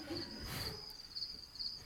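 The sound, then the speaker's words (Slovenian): Crickets chirp in a steady, high, shimmering trill that pulses in slightly brighter waves, with low rumbling noise beneath and no voices. “Čričke pa šluš, no.”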